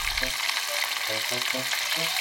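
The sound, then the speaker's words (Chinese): Fresh green-scaled herring, thinly coated in flour, frying in oil until golden on both sides. The sizzle is a steady, dense hiss that continues throughout. “用面粉在鱼身上薄薄抹一层，将青鳞鱼下锅炸到两面金黄，就大功告成”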